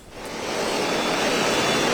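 Heavy rain pours down on the Haramidere industrial area of Beylikdüzü, Istanbul, as a dense, even hiss that swells over the first half second and then holds loud and steady.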